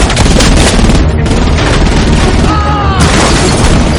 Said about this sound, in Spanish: Una mujer encapuchada dispara a los policías desde la plataforma. El conductor es abatido a tiros y el copiloto salta al vacío.